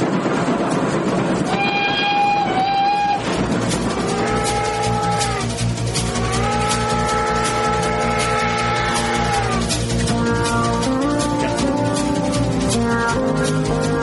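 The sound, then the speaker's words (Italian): A train rolls along with a steady rumble and rhythmic clacking of wheels on rails, punctuated by long, sustained horn tones that hold for several seconds before fading back into the continuous running noise. “Allora, è un treno”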